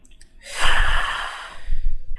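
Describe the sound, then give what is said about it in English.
A single deep breath taken during a guided relaxation exercise, with one hand resting over the other on the chest. A long, loud, breathy rush is followed by a shorter breathy swell, with no talk. “And take one deep breath there.”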